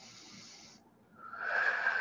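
Breath drawn in while raising the shoulders toward the ears in a shoulder rotation exercise: a soft airy breath, a short pause, then a louder, fuller hissing inhale that swells and holds to the end.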